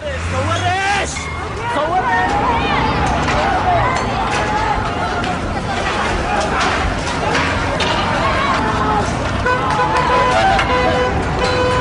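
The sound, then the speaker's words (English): Rush-hour street traffic: a steady, loud wash of engine noise and crowd babble, with occasional horn toots throughout. “The Israelis get caught in the rush hour traffic.”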